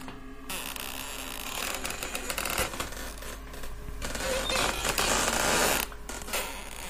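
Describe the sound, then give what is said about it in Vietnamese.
Bamboo stalks rubbing against each other give a continuous grinding creak, with a low steady hum underneath and no voices. “cùng với tiếng những thân tre cọ vào nhau ken két, nghe đến giận cả người.”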